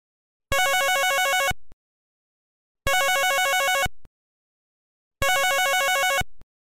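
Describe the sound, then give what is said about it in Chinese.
A telephone rings with an electronic warbling trill. It sounds in three separate bursts of about a second each, with even gaps between them. The tone is bright and loud, and no voices are heard. “向这个时候电话突然间响起”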